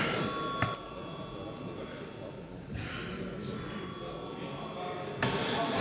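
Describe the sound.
An electric bell rings in a parliament chamber before a vote, a steady continuous ring over a noisy background, broken by a few brief thumps.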